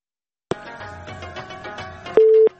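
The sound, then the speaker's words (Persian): A listener's call being connected: a stretch of soft, tonal line sound ends in a brief, loud, steady telephone beep. “میریم نخستین تماس را وصل می‌سازیم، ببینیم کدام عزیز ما هست، از کجا تماس گرفته.”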